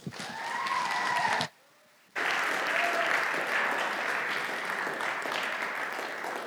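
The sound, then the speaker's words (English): Audience applause for a speaker being welcomed, steady, even clapping that cuts to silence for a moment and then resumes at the same level. “Give him a hand.”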